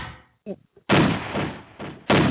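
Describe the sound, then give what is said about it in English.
Gunshot sound effect: a few loud, sharp bangs, each with a rumbling tail that runs into the next, following a brief snatch of voice. “so both of us can just take the gunshots together.”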